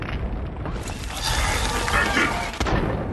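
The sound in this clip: A frag grenade explodes in a video game: a broad, booming burst that swells and rumbles for a couple of seconds, then ends with a sharp crack.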